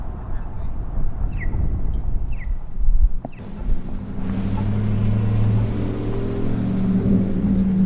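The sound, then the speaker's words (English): Traffic at the corner of Main Street and 4th in Williston, North Dakota: a steady low engine rumble that briefly dips and then swells again, with a voice speaking over it. “I'm standing at the corner of Main Street and 4th in Williston, North Dakota, across the street from the Plainsman Building”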